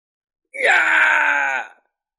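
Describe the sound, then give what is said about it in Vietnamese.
A terrified, anguished scream rings out as a single loud, sustained voiced cry lasting just over a second, sweeping sharply upward in pitch at the onset, then holding steady before cutting off. “Một tiếng thét hoảng sợ thảm thiết vang lên.”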